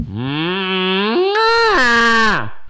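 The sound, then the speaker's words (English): A person imitates a cow's moo with one long voiced call that steps up in pitch partway through, holds, then drops and fades at the end. “I got a good cow call.”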